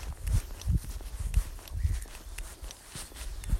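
Footsteps of people walking: many soft, low thuds in an even, steady rhythm throughout.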